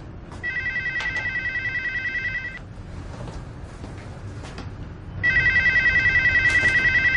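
A telephone rings unanswered in a home. Two long bursts of bright, warbling electronic ringing are separated by a quiet gap, and the second burst is cut off at the end.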